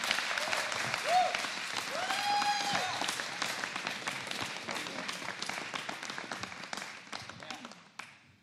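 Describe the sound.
Audience applause at a church service welcoming a guest preacher: sustained, dense clapping from a crowd with a few cheers mixed in, holding steady before tapering off at the end.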